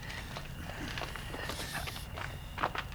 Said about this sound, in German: Gehen wir unauffällig ein Stück näher heran.